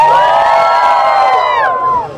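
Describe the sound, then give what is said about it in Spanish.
A crowd of pilgrims on a walk in El Salvador shouts and cheers together, a loud, sustained massed cry with ringing tones that holds steady and then tails off near the end. “¡Un grito a los peregrinos de Romero!”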